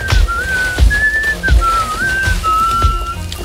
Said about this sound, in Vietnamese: Làm sao hắn có thể huýt sáo được chứ?